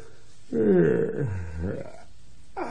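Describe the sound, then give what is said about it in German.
A long, deep, grunting snort from someone behind a haystack, low and rumbling for over a second, fading out, then a brief new onset just before the end. “Dann hörte er ein Geräusch. Irgendjemand hinter dem Heuhaufen schnaufte”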